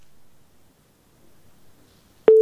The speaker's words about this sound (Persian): تماسی شنونده ما هم قطع شد